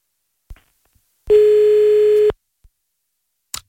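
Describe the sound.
A telephone dial tone while redialing a dropped call: one steady, loud, unbroken tone lasting about a second, with a few soft clicks before it and after it.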